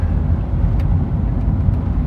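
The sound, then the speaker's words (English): A car drives the final stretch of a commute to a tree farm, giving off a steady low engine and road rumble that stays even throughout. “what's interesting as I drive the final leg of my commute to the tree farm is I noticed now that”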